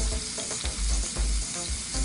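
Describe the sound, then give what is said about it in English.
Garlic sizzling in a small pool of oil in a tilted pan: a steady, dense hiss and crackle runs throughout, broken by a few soft low knocks, with no voices. “Now what I'm gonna do is tilt this just a little bit so you get that little pool of oil. And then I'm gonna add my garlic in there and that's gonna kind of flavor my oil.”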